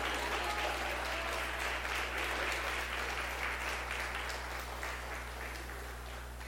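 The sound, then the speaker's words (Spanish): Congregation applauding during a church sermon, a sustained dense patter of many hands clapping that eases slightly toward the end, over a steady low hum. “Apláudele bien al Señor si lo vas a aplaudir.”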